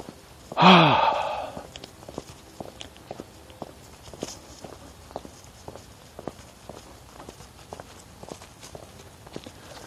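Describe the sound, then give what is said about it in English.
Footsteps of a person walking outdoors, many soft, even steps at a steady pace, following a loud, breathy sigh at the start. “I'm out, I'm walking, I'm moving. That's what counts.”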